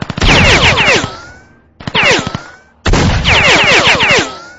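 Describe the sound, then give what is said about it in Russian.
Bursts of automatic gunfire during a forest firefight, one shooter firing a Gadyuka and the other a shotgun: three loud, rapid volleys separated by short pauses, with whistling tones over the shots. “Однако не прошли мы и 20 шагов, как напоролись на огонь из двух стволов.”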